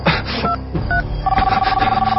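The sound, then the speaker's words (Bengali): Keypad tones as a phone number is dialed: two short beeps, then a longer steady tone, heard over a dense, loud background. “হ্যাঁ, phone দিতে হবে, নীলাকে phone দিতে হবে। 0171”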